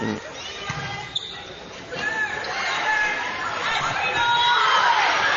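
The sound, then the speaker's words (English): A ball bounces once, a short sharp knock early on, ahead of a heavily topspun serve during a match, with crowd chatter and voices talking throughout. “Ball bouncing right low.”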